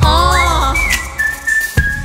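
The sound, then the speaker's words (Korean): Whistling carries a tune over a beat: a few sustained, high notes, loud and clear, with no voices. “휘파람 휘파람 파람 파람. Can you hear that? 휘파람 파람 파람.”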